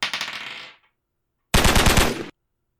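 Gunfire during a role-playing game combat turn: two loud bursts of rapid automatic shots, the first short and trailing off, the second after a brief silence, heavier and cut off abruptly.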